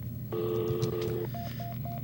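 Telephone tones sound while a cellphone is being called: a steady two-pitch tone lasting about a second, then three short, evenly spaced beeps, faint over a low hum.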